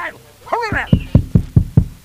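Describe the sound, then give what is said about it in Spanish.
Knocking on a door: a rapid series of evenly spaced, sharp thuds follows a short bit of speech, each knock firm and dull. “¿Tú qué quieres, pesado, que no para de llamarme a mi puerta?”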